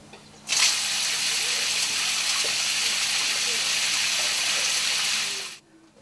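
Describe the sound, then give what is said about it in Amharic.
Water pours steadily from an outdoor shower used for washing feet, a dense, even hiss that starts abruptly, holds for about five seconds and cuts off. “የውጭ ሻወር አለ ማድቤት አለ እንግዲህ እግራችን የምንታጠብበት ሲሆን ይሄ ውሃ ሲያፈስልን እንታጠብበታለን”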